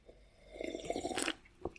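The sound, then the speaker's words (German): A sip of cola-orange soda makes a short, faint, wet slurp lasting under a second, followed by a small click. “Dann nehme ich mir mal einen Schluck von meinem Spezi.”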